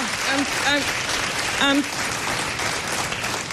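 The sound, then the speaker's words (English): An audience gives a standing ovation, a dense, continuous roar of applause with a voice rising briefly above it a couple of times. “She got a standing ovation and said this to the audience.”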